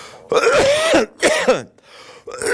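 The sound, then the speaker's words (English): A person clears their throat and coughs in two loud, rough bursts, then a third begins as the sound cuts off. “I'm going to need to deploy a cough drop here.”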